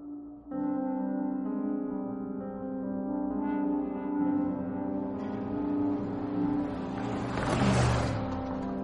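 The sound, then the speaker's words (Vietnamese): A car engine kicks in abruptly and keeps running as the car starts to drive away, a steady, tonal humming drone that grows rougher, with a hissing swell near the end and no voices. “Khi xe bắt đầu lăn bánh đi”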